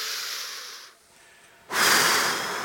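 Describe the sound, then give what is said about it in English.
A group of people takes a big deep breath together: a broad breathy rush, a short hush, then a second, louder surge of breath that slowly fades. “On the count of three, we're all going to take a big, deep breath.”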